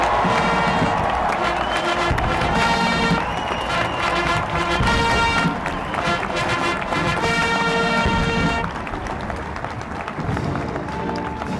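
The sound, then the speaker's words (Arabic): Applause and cheering from the crowd at a US presidential inauguration, a dense, sustained roar of clapping mixed with other tonal sound, easing somewhat in the last few seconds. “تعالت حينها أصوات التصفيق”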